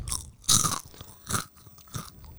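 A crunchy seaweed snack is chewed in a few loud, crisp crunching bites at uneven intervals, with softer mouth noises between them.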